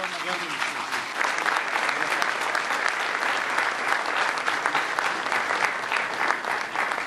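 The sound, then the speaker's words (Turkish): Audience applause at an international justice and law summit in Istanbul, a thick, even roar of many hands that holds steady and loud for the full seven seconds with no break. “Güçlü alkışlarınızla”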